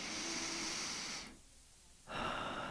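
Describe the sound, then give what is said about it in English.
Deep, cleansing breaths open a guided meditation: two long airy breath sounds separated by a brief quiet pause, soft and heard alone. “Let's begin by taking a deep, cleansing breath together”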